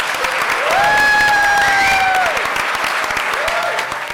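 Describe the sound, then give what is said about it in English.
Audience applause at the Science Museum, dense and steady clapping throughout with a few sustained musical tones above it. “Before you go off, I'd love you to give a warm round of applause and thank you to our guests.”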